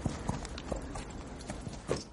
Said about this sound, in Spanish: Guardaron los caballos.